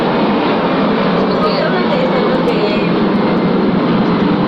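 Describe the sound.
An airplane passing overhead, heard as a loud, steady roar that fills the whole clip without pausing.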